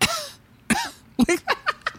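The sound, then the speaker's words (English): A human voice imitates a gorilla coughing: one long rasping cough, then a rapid series of short, sharp coughs. “and she coughs. It is so sweet. I'm like, Coco. I love little Coco. But why did I bring this up with the gorilla coughing?”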